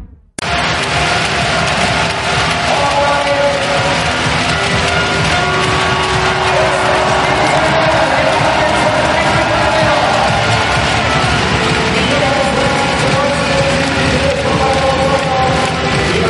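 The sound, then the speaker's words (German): Fans of TSV Hannover-Burgdorf cheer a 24:19 handball win over HSG Wetzlar at the 2018 Final Four in Hamburg, a loud, dense crowd roar that holds steady from start to finish. “Ihr hört im Hintergrund den Jubel. Das ist der Jubel des TSV Hannover-Burgdorf, der durch einen 24:19 Sieg gegen die HSG Wetzlar das Finale beim Final Four 2018 in Hamburg”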